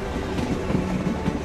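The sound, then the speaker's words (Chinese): Train wheels clack on rails as the train heads toward Hangzhou, a dull, heavy, rhythmic knocking over a steady low rumble, with no talking. “列车压压，直奔杭州而来，发出沉闷又凝重的铁轨叩击声，仿佛也叩击着毛泽东的心”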